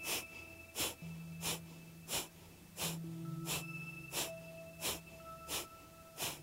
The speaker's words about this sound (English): See if you can feel the clearing, the skull cleansing breath this time.